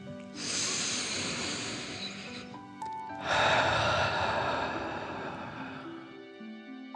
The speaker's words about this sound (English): Again, deep breath in and out.